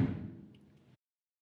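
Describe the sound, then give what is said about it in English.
A door being shut: one low, heavy thud at the start that rings and fades for under a second, then cuts off abruptly into silence. “You could come back another time, and I'm just going to shut the door.”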